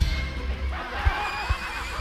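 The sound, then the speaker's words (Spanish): A racehorse neighs in a short, wavering whinny that rises and falls over about two seconds, with a couple of soft low thumps. “El caballo se llama Pomelo. Corría Pomelo en el número 7.”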